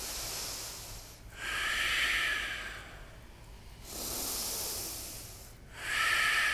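Loud breathing in and out through the nose during a yoga class, several slow, hissing breaths that swell and fade in a steady rhythm, alone without talk.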